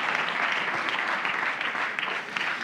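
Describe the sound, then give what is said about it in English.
An audience at Mercersburg applauds to welcome a guest speaker, with sustained, even clapping at a steady loudness throughout. “Will you please give a Mercersburg welcome to Dr. Yuval Levin?”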